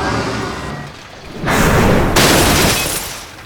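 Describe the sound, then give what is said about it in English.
A mace smashes three black crowns on a flat rock in loud, crashing, shattering bursts. Two strong surges of breaking noise rise over a rough, rumbling background. “Eilish found a flat rock, opened the sack he carried, and set the three black crowns on the stone. Doorstop, smash them to pieces.”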